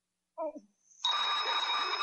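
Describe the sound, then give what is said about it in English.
A telephone bell starts ringing abruptly after a brief vocal sound and keeps up a steady, bright, continuous ring to the end. “Get the phone”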